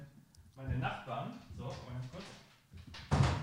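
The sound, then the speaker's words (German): A door being closed lands as a short, dull thud near the end, following quiet talking by a voice. “Ich muss übrigens mal ganz kurz, mach mal ganz kurz weiter, ich mach mal kurz die Tür hier zu”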